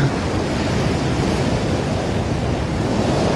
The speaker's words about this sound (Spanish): una vena del mar, ahí está subiendo las olas, el mar pues está saliendo